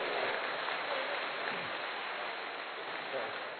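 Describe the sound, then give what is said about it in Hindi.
Audience clapping at a Shiv Jayanti function, a muffled, steady patter of many hands that continues evenly from start to finish. “सब जोर से ताली बजाओ,”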